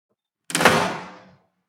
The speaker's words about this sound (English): then turns back into her house and closes the door.